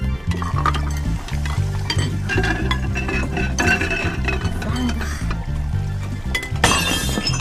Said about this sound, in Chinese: 快，先刷碗。